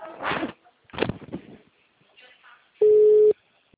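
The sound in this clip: Telephone ring tone, heard while a call is placed: one flat, steady, mid-pitched beep lasting about half a second, following a few short bursts of talk.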